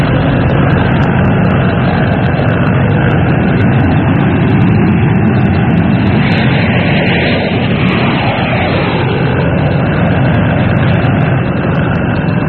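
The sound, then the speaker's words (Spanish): A modern jet airliner taxiing on runway 3 after arriving on a long flight from Hong Kong makes a loud, steady engine roar. The deep rumble with a hissing upper layer holds unbroken throughout, with no voices. “se deslizaba imponente el moderno jet, como blanco pájaro que escogiera la fría tarde para descansar de largo vuelo.”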